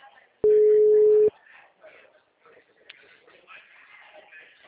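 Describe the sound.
A telephone tone while placing a call: one loud, steady, mid-pitched beep lasting just under a second, followed by faint background murmur and quiet voices.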